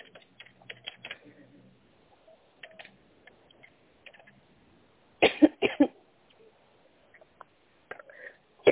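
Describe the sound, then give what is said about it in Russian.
A woman coughs in a short cluster of a few harsh, sudden coughs midway, with faint keyboard tapping and soft clicks before and after them. “Ой, извините, я закашлю.”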